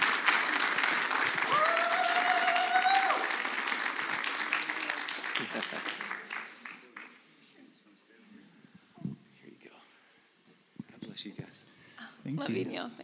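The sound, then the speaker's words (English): An audience at a church service applauds to welcome two speakers to the stage. Sustained, loud clapping lasts about six seconds, then fades into quiet murmuring, whispers and brief talk. “Let's give them a nice warm welcome.”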